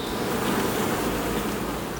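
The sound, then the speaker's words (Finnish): Honeybees buzzing as a dense, steady swarm drone, loud and continuous without a break. “se on kyllä niin kaunis eläin, että ei voi kauniimpaa eläintä olla kuin mehiläinen.”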